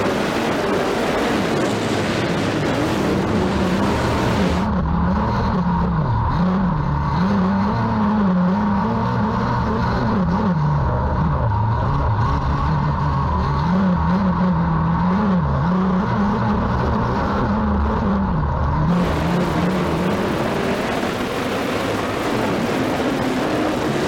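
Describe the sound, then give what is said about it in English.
Race cars roar around a dirt track in a steady, loud engine drone whose pitch wavers and surges, continuous for the whole stretch with no pauses. “as they'll come to a green flag. Harris and Tim Estenson. And it's Estenson sliding up ahead.”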